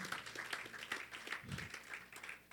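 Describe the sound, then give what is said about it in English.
Faint clapping from a church audience applauding during a sermon, a steady patter of many hands with no pauses. “Clap for the Lord Jesus.”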